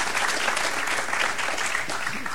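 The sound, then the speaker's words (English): Audience applause at a gathering, a dense, steady wash of clapping that holds at an even level from start to finish with no clear gaps. “Give them an applause.”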